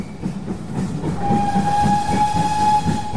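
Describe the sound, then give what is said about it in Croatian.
A narrow-gauge steam locomotive on an old mountain railway sounds its whistle, a sustained, steady high tone that cuts in partway through and holds for over a second, riding above the train's rumbling, rhythmic clatter. “Pisak Ćirine lokomotive, oblaci pare i uskotračna pruga rijetko se mogu vidjeti i doživjeti kao turistička atrakcija.”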